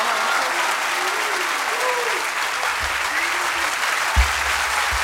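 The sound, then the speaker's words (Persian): A crowd claps steadily and densely during a verse recitation praising Ali, with faint voices heard through it and a few low thumps breaking in near the end. “جوندار دست بزن، ماشاءالله.”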